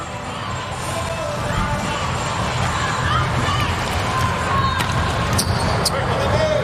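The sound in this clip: Volleyball being served and passed in a match, with sharp ball hits standing out a few times over a steady roar of crowd noise.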